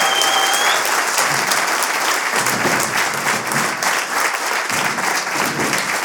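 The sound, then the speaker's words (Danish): Loud, sustained audience applause greeting a comedian onto the stage at a live talk show in Vejle, dense and even for the full six seconds. “Mine damer og herrer, giv en kæmpe stor til Thomas Hartmann. Kæmpe hånd.”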